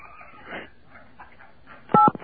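Telephone keypad buttons pressed on a phone during a call, giving a quick run of a few loud, bright beeping tones near the end after a stretch of quieter low murmur.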